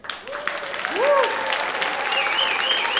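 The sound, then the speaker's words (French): A crowd on its feet gives a standing ovation, loud sustained clapping that swells within the first second and then holds steady, with voices and a whoop rising above it. “J'aimerais qu'on puisse tous se lever, s'il vous plaît. Et est-ce que vous serez d'accord pour qu'on fasse une ovation au roi des rois ?”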